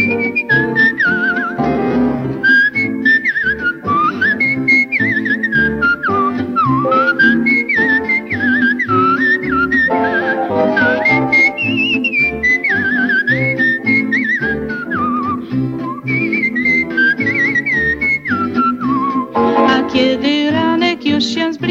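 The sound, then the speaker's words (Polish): A woman whistles a cheerful, lively tune. It is a loud, continuous, wavering melody that glides up and down and carries on unbroken for about twenty seconds, over steady sound underneath. “Przy tym sama gwiżdżę sobie tak wesoło i swobodnie, swym głosikiem gwiżdżę tak.”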